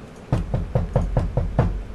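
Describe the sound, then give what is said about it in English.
Knocking on a door: seven firm, evenly spaced knocks in a steady rhythm, played alone with no voices. “But is there someone at the door? Is that what you mean? Yeah. Is there someone knocking? Who's there? Oh, God. There's someone knocking.”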